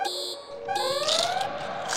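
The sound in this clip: An alarm blares as a red alert, a loud electronic beeping buzzer layered with rising siren-like sweeps. It carries on without a break, with no voices.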